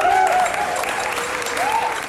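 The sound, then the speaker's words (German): Deafening audience applause erupts at the opening of a pop culture event, thick, sustained clapping, with a few cheering voices rising briefly above the crowd. “Ja, ohrenbetäubender Applaus, das war bei der Eröffnung gestern am Vorabend.”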